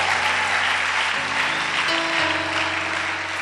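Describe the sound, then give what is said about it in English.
Applause from a church audience after a call to honor Jesus: dense, sustained clapping that stays loud and even throughout, with no voices standing out. “Can we give a round of applause unto Jesus?”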